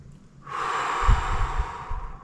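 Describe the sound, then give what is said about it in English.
One long, deep breath drawn in and let out slowly, a soft, airy rush that swells and then fades, with a faint low thump partway through. “Take a deep breath.”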